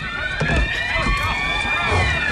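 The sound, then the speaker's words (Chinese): Many people running down the stairs of a building, a dense patter of hurried footsteps with low thuds, under a steady shrill high tone that holds throughout. “哟，这人们都在往楼下跑啊，是不是着火了？”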